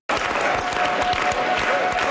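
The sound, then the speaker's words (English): A crowd at an election-night gathering for a party returning to power claps loudly and densely throughout, with many overlapping hand claps forming a steady wash of applause. “Scattered clapping turned into a unified chant for Quebec Premier-designate Paul St-Pierre Plamondon.”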